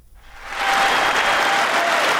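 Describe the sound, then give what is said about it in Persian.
Applause for Joe Biden in the US Congress before his annual address; the clapping swells quickly from quiet into a loud, dense, steady wash that holds to the end. “تشویق جو بایدن رئیس جمهوری آمریکا در کنگره این کشور قبل از سخنرانی سالانه‌اش”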